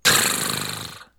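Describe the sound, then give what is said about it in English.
A voice imitates a vibraslap with the mouth, producing a single buzzy, rattling burst that starts abruptly and stays loud, then fades and cuts off after about a second. “I can make the sound of a vibra slap. It sounds like this.”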